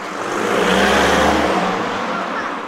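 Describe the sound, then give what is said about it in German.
Cars driving past make a loud, steady rushing roar with a low engine rumble underneath. The roar swells through the first second and then eases slightly without fading out. “Die Autos sind laut”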